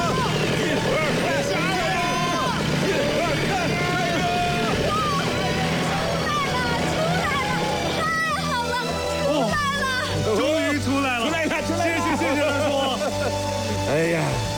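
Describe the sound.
A car engine revs as people push a stuck car in the cold. Many voices shout and cheer over a steady engine drone that runs throughout.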